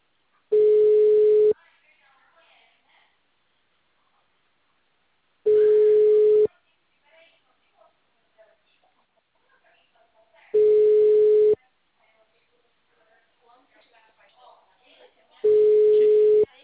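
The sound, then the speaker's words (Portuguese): Ringback tone of an outgoing phone call that goes unanswered. Four long, steady, mid-pitched beeps of about a second each repeat at regular intervals, with faint murmuring in the gaps between them. “Tá chamando. Os caras não atendem, mano.”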